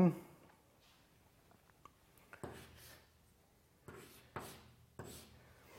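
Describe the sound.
Faint scratchy strokes of writing on a board during a physics lecture: a few short rubbing scrapes, spaced apart, over an otherwise quiet background.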